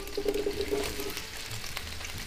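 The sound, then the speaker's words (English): Tomato frying in extra oil in a pan on a gas stove: a faint, steady hiss of sizzling oil with light crackles. “Okay, now the tomato will stay like this. It starts to pop out everything.”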